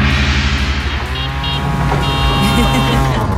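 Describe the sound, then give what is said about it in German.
Engine of a tuk-tuk auto rickshaw, a loud, steady droning with a buzzy harmonic whine that runs unbroken throughout. “Wie könnte so ein Tuk-Tuk klingen? Wahrscheinlich so.”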